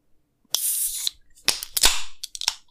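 A small 0.33-litre can of energy drink being opened: sharp cracking clicks, one followed by a short hissing burst, then several more quick clicks and crackles. No one speaks.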